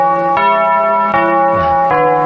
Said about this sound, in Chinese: 您记得当时这个钟声是什么声音吗？ 就是现在这个声音。